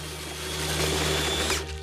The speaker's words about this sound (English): He pours milk into the blender, takes a slug of vodka from the bottle, adds strawberries to the milk and turns on the blender.